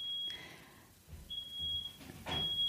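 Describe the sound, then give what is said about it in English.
Smoke alarm sounding: three faint, steady high-pitched beeps at a fixed tone, separated by short stretches of low background noise. “Is that coming through? That's the smoke alarm.”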